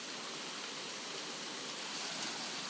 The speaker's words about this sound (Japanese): 雨がたくさん降ってまして、この後避難勧告とかが出てくるかどうかなって感じなんですけれども